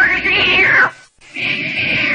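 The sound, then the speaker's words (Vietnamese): Cat meowing in two long, loud, drawn-out cries separated by a brief silent pause. “Con mèo khốn kiếp.”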